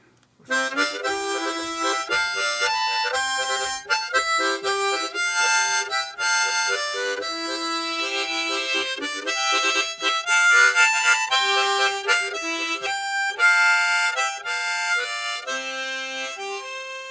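A C harmonica plays a lively tune with notes tongued for a full, chord-rich sound. The reedy notes change rapidly and rhythmically in a continuous, loud stream, with no voices.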